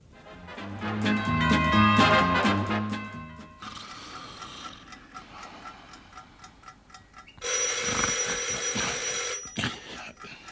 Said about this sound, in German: Das Telefon. Um 3 Uhr nachts? Wer ruft uns denn um die Zeit an?